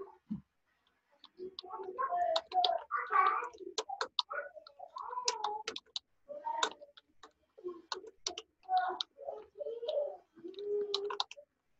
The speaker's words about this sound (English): I'm going to type a few words in Arabic, of course.